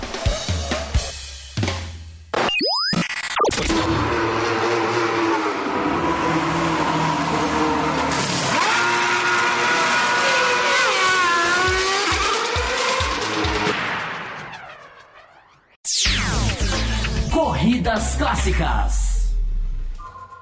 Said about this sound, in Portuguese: Agora a gente passa a vinheta, a gente começa o quadro da Corridas Clássicas GP de Abu Dhabi 2012.